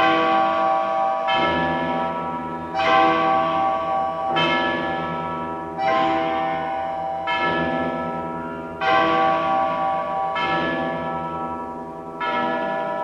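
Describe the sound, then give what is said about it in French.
A large church bell at Notre-Dame cathedral in Paris rings in many slow, regular strikes. Each deep, rich clang blooms into a long shimmering hum that overlaps the next, with no voices. “Cloche de Notre-Dame à Paris, qui sonnait les glas et les carillons, qui sonnait la joie et la peine.”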